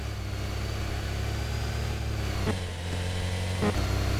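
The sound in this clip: A car engine in a video game, pressed on the accelerator, hums as a steady mid-pitched drone with two brief surges partway through.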